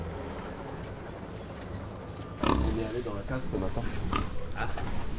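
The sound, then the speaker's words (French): Pigs grunting and oinking on a farm with sows, where a badly closed door has let a pig get out. A low rumble gives way after a couple of seconds to louder, busier grunting that continues to the end. “Et on n'a pas refermé la porte. Voilà. Une porte mal fermée égale cochon dehors.”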